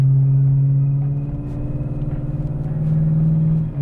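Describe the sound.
A 1990s BMW 7 Series E38 car accelerates on smooth asphalt with its stiff gas pedal pressed hard. The engine gives a loud, steady, low droning hum with strong harmonics, and no one speaks.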